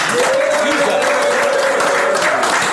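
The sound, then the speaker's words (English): A crowd applauds and cheers for 89 with steady, dense clapping, and a sustained whistle runs through most of it. “Make some noise for 89.”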